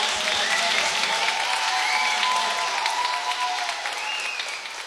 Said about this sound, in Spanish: Muchísimas gracias. Dale. Un aplauso.